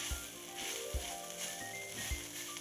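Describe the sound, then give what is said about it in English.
Sizzling of a vegetarian meat sauce being sautéed in a pan, a steady soft hiss with a few dull low knocks spaced through it. “Now we'll saute that until everything is nicely blended together.”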